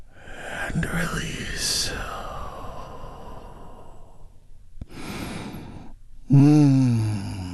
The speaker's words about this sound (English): Let's take a big, deep, healing breath together right now.